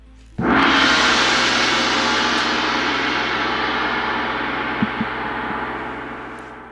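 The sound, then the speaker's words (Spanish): A single strike on an ancient cymbal made in the Mongol Empire, a sudden bright crash that blooms into a long, shimmering wash and decays very gradually over several seconds, heard on its own. “el padre de Kublai y el hijo de Genghis, cuyo nombre ignoramos, se fabricó este platillo que suena así.”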